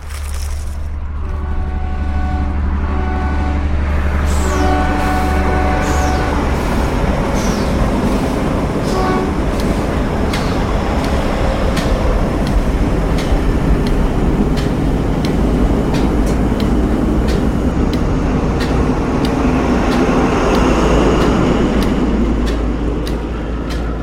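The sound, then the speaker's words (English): A train arriving at its terminus, heard as a loud, steady low rumble of rolling rail cars with regular clicking beats and a brief tonal whine near the start, continuing without pause. “Au début du pays rouge, le train s'arrête. C'est le terminus.”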